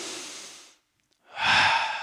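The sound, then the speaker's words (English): A person takes a deep breath during a sermon: one breathy rush fades into a brief silence, then a second, louder airy breath follows. “Go ahead and take a breath with me.”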